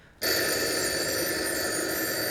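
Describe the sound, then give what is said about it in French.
A telephone bell starts abruptly after a brief quiet moment and rings loud, bright and continuous, holding a steady metallic trill to the end. “Vite, téléphonons maintenant au capitaine.”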